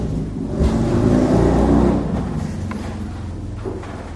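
Motorcycle engines rev outside, a loud, low rumbling roar that swells and then gradually eases off.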